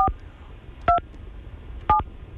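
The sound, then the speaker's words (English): A telephone number is dialed on a keypad: three brief, clear two-tone beeps, evenly spaced about a second apart, each loud against faint background noise. “That number was hard for you to dial, wasn't it?”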